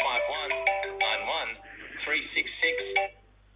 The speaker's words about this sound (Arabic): ايش هو هذا واتساب؟ ايوه